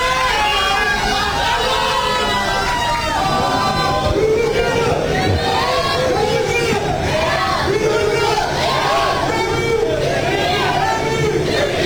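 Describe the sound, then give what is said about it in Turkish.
Turkish football fans cheer the national team as it arrives at a hotel entrance, waving flags. The crowd's voices form a loud, dense, unbroken hubbub for the whole stretch. “Kafileyi otel girişinde Türk taraftarlar bayraklar ve tezahüratlarla destekledi.”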